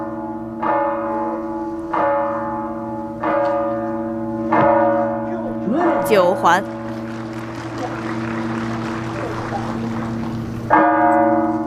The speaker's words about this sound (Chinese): 今天现场的噪音还是比较多的啊，像这种比较刺耳的敲钟的声音，还是会对选手有一定的影响。